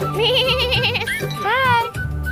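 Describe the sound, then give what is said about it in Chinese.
Sheep bleating at a scenic outdoor stop, with loud wavering, tremulous calls and a rising cry. Voices can be heard alongside the animals. “好像也有绵羊。”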